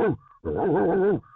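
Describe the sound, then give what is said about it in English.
A person imitates a dog bark with a voiced, growly imitation: a short yelp, then a longer drawn-out bark with a wavering pitch, loud and alone. “That's a confident bark that's right there. That's terrifying.”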